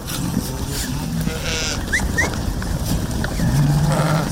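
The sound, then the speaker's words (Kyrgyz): Sheep bleating in a flock of about 500 grazing on mountain pasture with medicinal herbs; a few short bleats rise over a steady outdoor background, with a longer, lower call near the end. “Бияк койлорум меники.”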